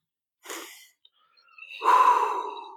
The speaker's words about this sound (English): Close down your eyes. Take a breath.